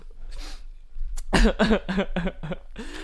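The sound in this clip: Coughing and choking after a drink of bubbly went down the wrong way: a quick run of several harsh, throaty coughing bursts follows a quieter stretch, each burst loud and strained.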